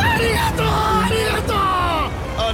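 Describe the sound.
A man screaming as he reaches to click a button: a loud, strained, continuous yell with a wavering pitch, set over a constant background of crowd-like babble.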